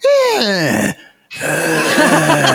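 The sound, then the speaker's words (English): A human voice imitates the crackling breathing of a nurse character from a horror video game, starting with a loud, groaning vocal glide. After a brief silence comes a harsh, rasping, breathy rattle. “And you hear this like this crackled breathing from her.”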